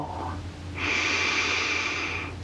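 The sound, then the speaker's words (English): Relaxed breathing, in through the nose and out through the mouth: a soft airy hiss that swells after a quieter start and holds steady for about two seconds, with no talk. “Continue breathing in through your nose, out through your mouth, allowing as you exhale for your body to let go.”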